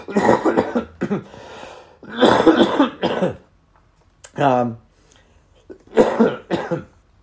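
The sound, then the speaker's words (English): A person coughs in a few loud, rough bursts separated by short pauses, a recurring cough caused by blood pressure medicine. “They put me on a new blood pressure medicine. Not new, I've been taking it a while, but when I increase it, I always get this cough”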